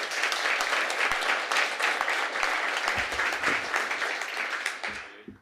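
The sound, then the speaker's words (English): Audience applause welcoming a storyteller onto the stage at a storytelling night, a full, continuous rush of clapping that holds steady and then fades out at the very end. “so please give a warm welcome to David Mitchell”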